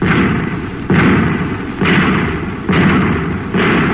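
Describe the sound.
Five anti-tank shells fired one after another: heavy booming blasts at a steady rhythm about a second apart, each with a rumbling tail that runs into the next shot.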